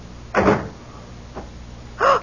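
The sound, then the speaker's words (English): A door shuts with a dull thud, followed by a faint knock and a second short burst, heard alone in a tense radio mystery drama scene with no talk. “Come in, close the door.”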